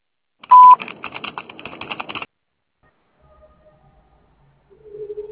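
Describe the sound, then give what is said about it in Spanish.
Voicemail beep on a phone line: a burst of rapid clicking, dial-like tones, then near silence, then a steady low tone sounding alone at the end. “Después del tono, grabe su mensaje.”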